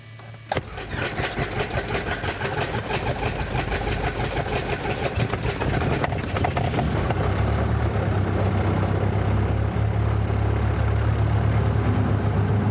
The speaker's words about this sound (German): Wir fahren hier noch die letzte Kurve, bevor sie nachher auf die Startbahn geht und wir dann in die Luft abheben.